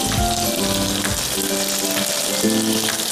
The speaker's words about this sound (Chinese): 翻炒均匀后，倒入适量的生抽，